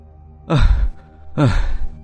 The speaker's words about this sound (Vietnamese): Nè, làm gì thở ghê vậy mày?